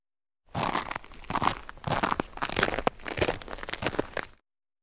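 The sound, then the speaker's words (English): A crunch sound effect: a rapid run of many dry, gritty crunching bursts lasts about four seconds. It is fairly loud and heard alone, starting and stopping abruptly. “Crunch.”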